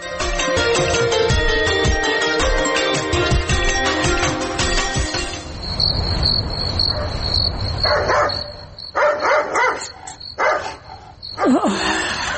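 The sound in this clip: A dog barking at night, with a series of sharp, loud barks in the second half over steady high chirping of crickets, following a stretch of music at the start.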